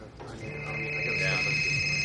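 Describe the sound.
A mobile phone rings with a steady, high-pitched electronic ringtone that grows louder after a brief start and continues to the end.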